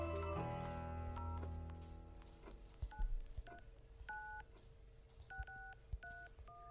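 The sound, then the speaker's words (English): Touch-tone telephone dialing of an 800 number: a quick series of short two-note beeps, some close together and some spaced apart, over a faint background. “So let's dial it ourselves and see if we can get through to it.”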